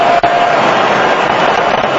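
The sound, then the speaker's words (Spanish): A stadium crowd erupts in cheers at a giant screen showing a 3–2 score against Algeria, a loud, dense and sustained wall of voices. “En la pantalla gigante, ganando 3 por 2 Argelia, la gente explotó de alegría.”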